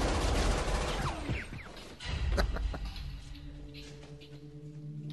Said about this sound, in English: Never-ending bullets. Dude, there's no cover either. They're shooting at each other.